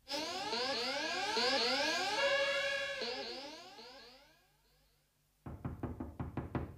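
Knocking on a door: a rapid run of about half a dozen sharp raps in quick succession. They come after a fading stretch of sweeping tones and a brief silence, with no voices.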